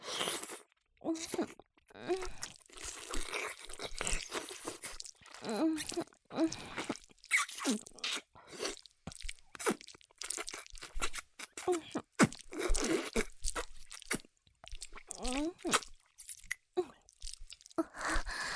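Crunchy food being chewed, with many sharp, crisp crunches coming in irregular bursts separated by brief pauses.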